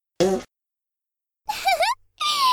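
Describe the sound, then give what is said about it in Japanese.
Fart sounds: a short, low, buzzy burst, then after a pause two longer, louder blasts with a wavering, higher tone, the last running to the end. “女の子におならぶっ放された気分はどう？私のおならは鼻からの息を止めててもこじ開けて嗅がせちゃうからね。”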